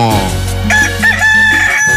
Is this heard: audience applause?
no